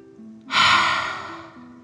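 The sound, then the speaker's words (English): A single deep exhale during a guided relaxation, a breathy rush that starts suddenly, swells, then slowly fades over about a second, above soft steady background tones. “Let the sun warm your feet and breathe like a dragon, in and out.”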